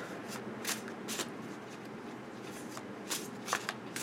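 Tarot cards being shuffled by hand: a few quick, crisp riffling bursts spread across the stretch, with a soft steady papery hiss between them, fairly faint and with no voices.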